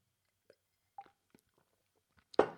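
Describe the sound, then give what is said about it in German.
Someone takes a sip of a drink: a few soft, separate mouth clicks, then a brief, louder burst at the end, with no talk. “Ich muss mal kurz einen Schluck trinken, Moment.”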